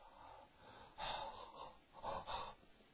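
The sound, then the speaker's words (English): Breathing out without any voice: a couple of soft, airy exhalations, faint and breathy, separated by short quiet pauses. “Breath is what comes out of me. I breathe all the time, but I don't speak. If I just come to you and start going,”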